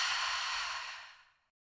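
A single slow, soft exhale during a guided relaxation breathing exercise, airy and breathy. It starts fairly steady and then gradually fades to silence after about a second and a half, with no talking.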